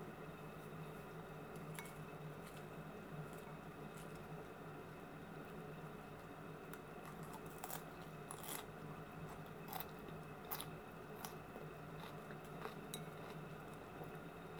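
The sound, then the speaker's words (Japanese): Someone eats a Caesar salad with a cheesy dressing, making faint, intermittent crisp crunches of lettuce and occasional light clinks over a soft steady hiss. “よし、じゃあサラダいただきます。”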